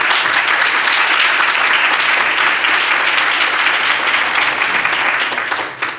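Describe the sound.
Audience applause welcoming a reverend to the podium: loud, dense clapping that holds steady for about six seconds before tapering off at the very end.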